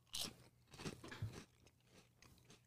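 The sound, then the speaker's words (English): Crisp bites into a cracker topped with an egg-tasting spread, one sharp crunch followed by several softer chewing crunches, all fairly quiet. “I'm going to put on a cracker. I'm not going to eat. Okay. All right. I'm going to just eat a little bit.”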